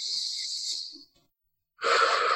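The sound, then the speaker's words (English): Deep breathing during a qi breathing exercise: a long, airy rush of breath, then a short silence, then a second, stronger and fuller breath sound. No talking. “Do that one more time. A nice deep breath.”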